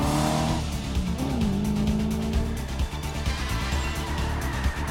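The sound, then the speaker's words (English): An Aston Martin sports car speeds round a hairpin bend and overtakes a convertible: a loud, revving engine whose tone dips and shifts, with a rapid, buzzing rasp throughout. “The Aston Martin negotiates the hairpin bend and overtakes a convertible sports car.”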